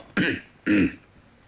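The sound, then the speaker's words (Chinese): Two dry coughs clear a man's throat, each a short raspy burst, spaced about half a second apart and fairly quiet, with no talking. “这文官捧着这表彰啊，站在这会儿干咳嗽两声”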